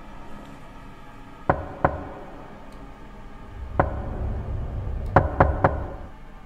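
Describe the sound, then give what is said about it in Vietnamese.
Sharp knocks on the door of a village communal house come in uneven groups: a pair, then a single knock, then a quick run of three, over a quiet low rumble with no voices. “tiếng gõ cửa từ nãy đến giờ im phăng phắc lại vang lên, y như lúc nãy, tiếng gõ cửa 3 nhịp 1 đều đặn.”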